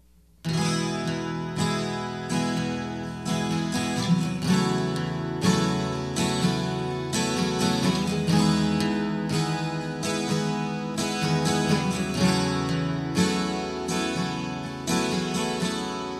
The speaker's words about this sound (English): This is the basic strumming pattern. We're going to use the three chords used in the introduction and the first two lines of the verses as a demonstration. It's going to sound like this.